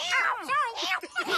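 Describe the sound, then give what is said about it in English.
A found kitten meows several times in short, high, bending cries, with brief gaps between them. “we found a kitten”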